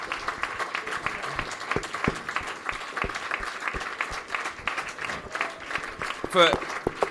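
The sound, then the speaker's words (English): Scattered applause from an audience at a live evening event in a brewery. Individual claps pop out unevenly rather than merging into a roar, while voices talk over them and one louder vocal burst comes near the end. “if we could give Billy and Laney a massive round of applause”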